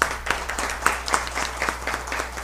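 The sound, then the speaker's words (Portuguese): Applause from the audience at a town council session, welcoming a newly opened local fruit shop; many individual claps stand out from a steady patter over a low hum. “a saudação da Câmara à senhora, à empresa Fruteira Bem Viver, que se instala nessa semana em São Francisco, será através dos aplausos.”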